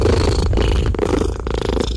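A contented rescue cat purring with a loud, steady low rumble and faint rhythmic pulsing, continuous throughout with no voices.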